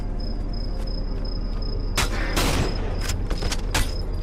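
Sniper rifle gunfire in a video game: after a stretch of a steady high whine, one loud crack rings out, followed by a few shorter, sharp bursts.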